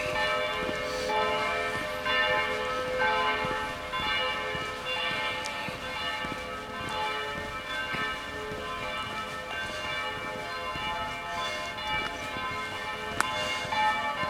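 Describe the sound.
A church bell rings at a church in Lindlar, a steady, continuous peal of rich, sustained metallic tones with many overlapping strikes throughout, loud and alone with no talk.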